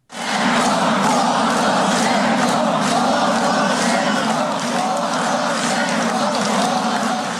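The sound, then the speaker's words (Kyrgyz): A crowd of several thousand people shouts at a thank-you rally supporting Petro Poroshenko after the gates were opened to them. The massed roar of voices holds at full loudness from start to finish. “Чогулгандар ушундай кыйкырып турушту.”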